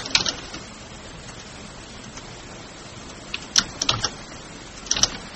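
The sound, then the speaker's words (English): Typing a website address on a computer keyboard, heard as a few short bursts of crisp clicking keystrokes separated by pauses over a low, steady background hum. “And there's a nice useful website. I'll just type that in.”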